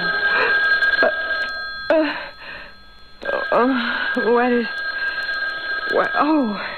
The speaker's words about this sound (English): It's a phone. Phone.